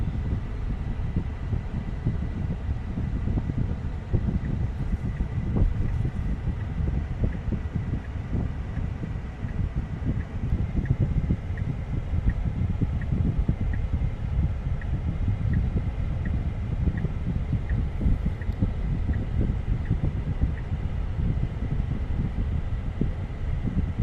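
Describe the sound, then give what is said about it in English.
Steady low road and wind rumble from inside a driverless car on the move, with a faint regular ticking running through it; no one speaks. “So here's the ride. Again, look, nobody in the driver's seat there, just driving away.”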